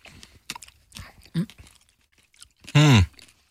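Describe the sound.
Chewing a grape with seeds gives wet, crunchy bites in an irregular rhythm, followed near the end by a short voiced hum.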